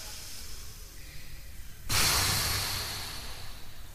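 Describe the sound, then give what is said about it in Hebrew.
Children blow hard to put out large candles. A single strong, breathy blow starts abruptly, then slowly tapers off, after a stretch of faint background noise. “נכבה את הנרות, זה נרות מאוד גדולים שמאירים את הספינה, קחו מלא מלא אוויר. ונשוף. עוד פעם.”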